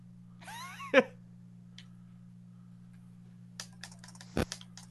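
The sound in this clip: Keyboard typing clicks in quick, uneven bursts near the end. A cat meows earlier, and a steady low hum runs underneath throughout.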